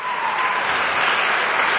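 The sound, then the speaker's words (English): A live television studio audience applauds in a short, dense burst of many hands that stays strong and steady throughout. “Let's give a round of applause for Carolyn for helping...”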